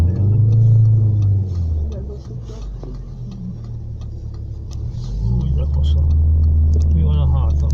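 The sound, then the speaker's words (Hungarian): A car passes by as a low engine rumble that holds steady, dips in the middle and then swells again toward the end. “Autó. Most van egy autó.”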